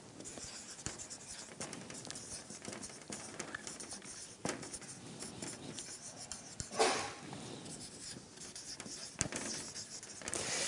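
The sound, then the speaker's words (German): A pen scratches across paper as something is written down by hand, a faint run of soft strokes and taps with a few slightly louder marks. “Ich schreibe erstmal hin, lerne dich beim Herrn zu bergen.”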